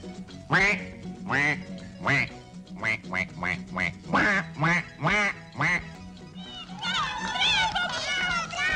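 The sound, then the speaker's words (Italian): A performer imitates a duck in front of children, letting out many rapid, nasal quacks in an uneven rhythm, followed by a burst of excited children's voices. “eseguirà il suo numero di maggior successo, la papera.”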